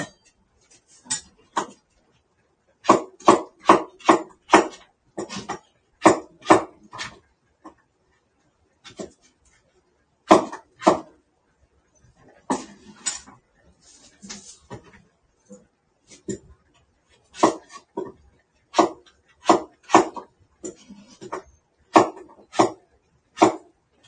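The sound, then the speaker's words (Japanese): Many sharp, short strokes of a vegetable peeler and knife working on potatoes in a home kitchen, coming in quick rhythmic bursts separated by pauses. “もらった皮むき器で料理をしています。”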